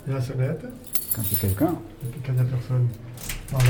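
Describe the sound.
Keys jangle in short metallic bursts beneath continuous conversational speech, with the jingling coming through most clearly toward the end.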